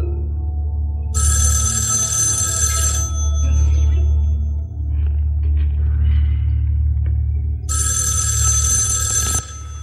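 Telephone ringing in an apartment: two long, bright, trilling bell rings separated by a pause of several seconds, heard over a steady low hum with no talking.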